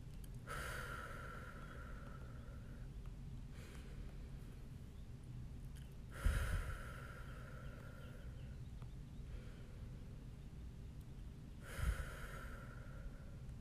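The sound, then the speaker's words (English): A person takes a few slow, deep breaths to calm down. The soft, airy inhales and exhales come at unhurried intervals, faint and alone. “do a couple deep breaths myself right now because I can feel myself getting a little frustrated, and it's totally fine, but I need to be calm for this next part. So I'm just gonna take a few breaths really quickly.”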